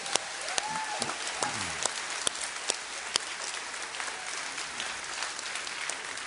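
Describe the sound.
Applause from a church audience welcoming back a mission team returned from Mexicali: steady, even clapping with sharp individual claps standing out, continuing for the whole stretch at moderate volume.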